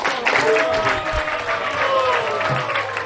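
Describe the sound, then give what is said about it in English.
Applause from an audience at a religious gathering, a dense steady clatter of many hands clapping through the whole clip. “So let's give a big round of applause to his”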